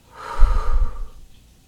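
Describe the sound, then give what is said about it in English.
A breath drawn in through the nose and let out through the mouth during a breathing exercise: one fairly loud, airy sound with a snort-like nasal edge that fades out, with no talk. “Breathing in through your nose. Hold at the top. Exhale out of your mouth.”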